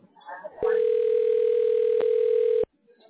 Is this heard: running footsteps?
no